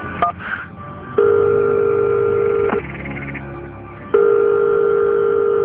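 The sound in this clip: Telephone ringback tone heard while calling a doctor: two long, steady electronic tones separated by a pause, with a few faint clicks before the first tone.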